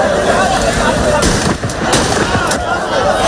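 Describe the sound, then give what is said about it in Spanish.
Police fire a few sharp gunshots into the air among shanty dwellings in a city. The cracks cut through loud, noisy commotion with voices. “algunos de ellos han provocado algunas situaciones en las que la Policía Nacional ha tenido que disparar al aire así.”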